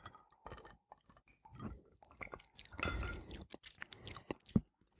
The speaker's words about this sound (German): Man riecht so ein bisschen den Gin, aber auch den Wein. Ja, und dann trinken wir doch mal.